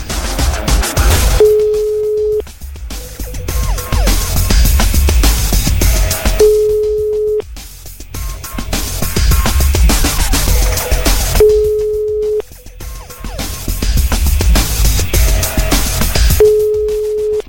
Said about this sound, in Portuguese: Estamos ligando para você, tem que atender dizendo alô, eu só ouço a Rádio Metrópolis.